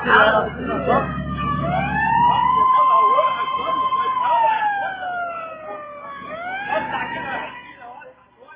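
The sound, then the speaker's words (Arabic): An ambulance siren at a street accident scene wails in long, slow rising and falling sweeps. It starts under voices and a low rumble and continues loudly, then fades toward the end. “الحقونا بالاسعاف، الحقونا بالاسعاف.”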